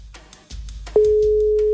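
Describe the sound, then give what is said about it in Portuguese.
A telephone line tone on a radio call-in show: a few faint clicks and rustles, then a loud, steady, single-pitched tone that starts abruptly and holds to the end. “Primeiro toque é o Jorge de Nova Iguaçu. Segundo toque. Terceiro toque.”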